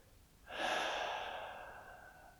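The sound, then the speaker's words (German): A deep breath during a relaxation exercise starts abruptly as a loud airy rush, then slowly tapers off, heard alone without talk. “nimm einfach einen tiefen Atemzug, atme ein und wieder aus”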